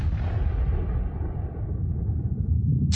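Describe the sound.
An artillery shelling explosion: a deep, loud rumbling roar whose higher hiss fades away while the low rumble carries on through the whole stretch.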